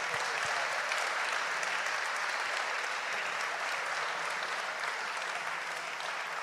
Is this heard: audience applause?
yes